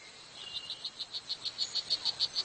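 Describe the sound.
Courtship call of a male strawberry poison dart frog in the jungle: a rapid, evenly spaced series of many high, buzzy insect-like chirps that grows slightly louder toward the end.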